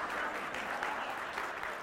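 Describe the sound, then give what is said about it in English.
A round of applause: dense, even clapping held at a low, steady level from start to finish. “Everyone give him a round of applause.”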